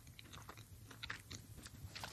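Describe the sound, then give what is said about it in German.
Faint crunchy bites and soft chewing on small, soft, biscuit-like plates, a few quiet crisp bites followed by muffled mastication with no talking. “Aber es sind viele kleine Plättchen. Kann ich da gleich mehrere auf einmal essen? Oder ja, starte doch mal mit einem.”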